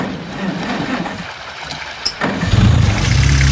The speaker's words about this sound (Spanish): Mira, soltamos las amarras. Ahora ponemos en marcha el motor.